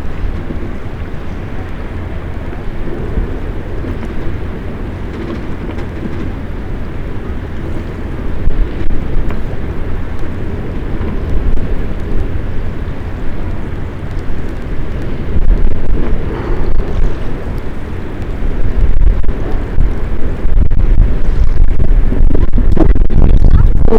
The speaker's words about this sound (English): Damn, this wind.